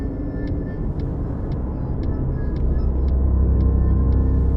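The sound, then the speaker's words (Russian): Cars stand idling in a traffic jam at a crowded intersection, heard from a taxi. A steady low rumble of engines carries on throughout, with a faint, regular high ticking about twice a second above it. “Машины стоят в пробке.”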